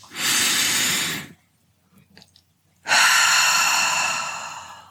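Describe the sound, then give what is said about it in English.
Slow breathing in a guided relaxation exercise: one long, airy inhale through the nose, then a pause, then a longer, louder, hissing exhale out through the mouth. “So let's start with those breaths. In through the nose and out through the mouth.”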